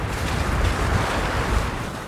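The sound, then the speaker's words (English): Strong wind blowing high up on a mountain, a steady, loud roar buffeting the microphone with deep rumbling gusts, continuous from start to end. “Man, I hope this wind is not messing up the podcast. It's really fucking windy up here.”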